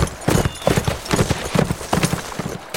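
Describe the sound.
Horse hooves clip-clopping as a rider follows on horseback, a dense, steady rhythm of many hoofbeats.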